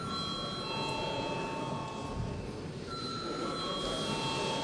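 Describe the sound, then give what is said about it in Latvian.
An electric bell rings in a parliament chamber before a vote, a steady, fairly loud ringing that holds through the whole stretch with a slight shift in tone partway, and no speech. “Lūdzu zvanu.”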